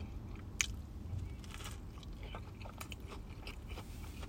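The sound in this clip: Faint biting and chewing on a large, moist-breaded vegetable mix sandwich from a 7-Eleven convenience store, with a soft crunch at the first bite followed by quiet, steady mastication and squishing.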